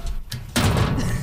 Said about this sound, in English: So that's us all opening our locker.